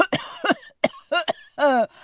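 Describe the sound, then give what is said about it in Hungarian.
A voice imitating coughing, a quick run of short, rough coughs and throaty bursts over about two seconds. “Prüszkölni fogtok, és így köhögtök.”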